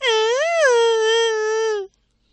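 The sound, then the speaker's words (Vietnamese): A little girl wails while struggling in her older sister's arms, one long drawn-out cry of about two seconds, its pitch lifting briefly before settling and trailing off into silence. “Cầu Đệ gào khóc, đấm vào mặt chị.”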